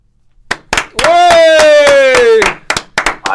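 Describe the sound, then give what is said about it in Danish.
Hand clapping in a live radio studio: many sharp, crisp claps at a quick, fairly even pace, with a sustained voice note sliding slightly downward through the middle stretch. “Er du klar til at klappe? Ja.”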